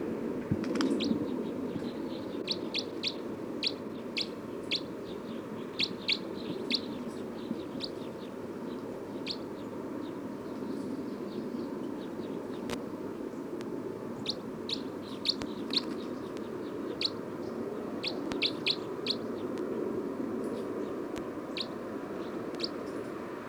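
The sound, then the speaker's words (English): Bird calls: many short, high, faint chirps repeat irregularly over a steady low hum throughout. “Start recording bird 306.”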